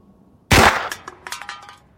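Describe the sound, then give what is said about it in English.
A single sharp gunshot striking a tin can, a loud crack followed by a short run of light metallic clinks and rattles that fade quickly. “You get one shot. Don't miss. The tin? The tin.”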